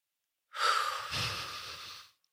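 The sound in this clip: One deep, slow breath: a loud, airy inhale that flows into a longer, softer exhale, then fades to silence. No talking.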